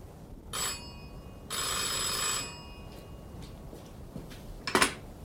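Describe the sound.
A telephone bell rings late at night in two bright, metallic bursts, the first short and the second longer. A brief clatter follows near the end, and faint room noise fills the gaps.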